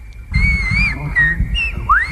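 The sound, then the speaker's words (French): Whistled language of the Canary Islands: several sliding, pitch-shifting whistled phrases that rise and fall like speech, carried over low background noise. “Les hommes parlent en sifflant dans le monde entier. Réaction à cette langue sifflée des Canaries,”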